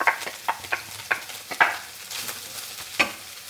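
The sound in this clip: Mushrooms and plant-based bacon sizzle in oil for vegan keto stuffed mushrooms, under a faint steady hiss, while many sharp scraping stir strokes cut in at uneven intervals.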